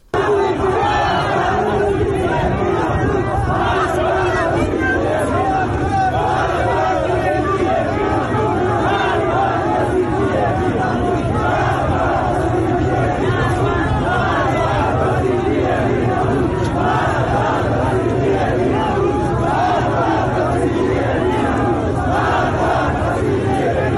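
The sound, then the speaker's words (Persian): A large crowd of protesters chants slogans in a street in Ahvaz, Iran. The massed voices are loud and continuous, a dense roar of shouting and rhythmic chanting that never lets up. “جمعیت زیادی هم هست و دارن شعار میدن”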